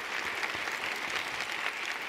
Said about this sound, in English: I just wanted to make sure she really does need of applause. I hope you join me.